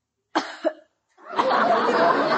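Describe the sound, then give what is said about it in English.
A girl gives two short, deliberate fake coughs in quick succession. After a brief pause, a longer, breathy, rasping sound follows. “if you start that phony coughing again...”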